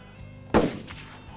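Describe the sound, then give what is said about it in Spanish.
A single gunshot fired point-blank into someone's chest in a Western setting: one sharp, loud bang with a brief decaying tail over a faint, steady background. “saca el arma así, te la pone en el pecho y dispara.”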